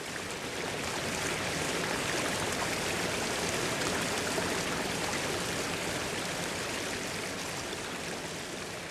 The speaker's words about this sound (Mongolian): Ас өмнө муралж мушгирсан нарин гол хөвөл дүүрэн догшин урсгалан хаялж алсыг зорин урсна.